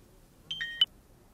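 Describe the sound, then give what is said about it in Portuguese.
A telephone gives a short electronic ring for an incoming call: three quick, clear beeping tones, moderately loud, with quiet before and after. “Quem está a ligar a esta hora? Espera, vou atender.”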